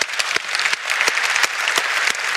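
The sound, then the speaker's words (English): Church audience applause breaking out after worship music, dense and steady clapping from many hands, loud and continuous throughout with no voices over it. “Whoever started applause over there, remember that when I'm done preaching, okay? Bring some of that back.”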